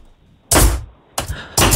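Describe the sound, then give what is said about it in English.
Three loud, sharp nail gun shots fire in uneven succession, each a hard, punchy bang with a brief thudding decay and short gaps between them. “Nail gun? That is correct.”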